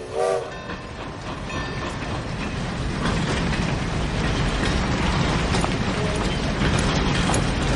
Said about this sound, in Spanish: En flashback, un tren llega a la estación.